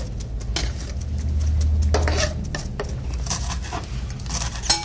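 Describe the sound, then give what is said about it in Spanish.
Ingredients are turned and mixed with lemon in a bowl, giving soft irregular scraping, stirring and light clinking sounds that are steady and moderately quiet throughout. “Y los vamos volteando para que el limón vaya impregnando.”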